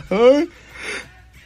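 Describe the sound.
A person yawns: a short voiced, open-mouthed tone followed by a softer, breathy exhale trailing off into quiet.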